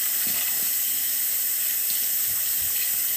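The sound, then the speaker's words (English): Running tap water pours into a sink while hands are washed clean after a messy application, a loud, continuous rushing hiss that stays steady from start to end with no talk. “thing to do is wash off my hands because the application process is messy”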